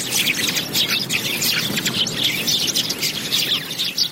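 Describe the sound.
Birds chirp in a park: many short, high twittering calls overlap continuously at a steady, moderate level, with no voices.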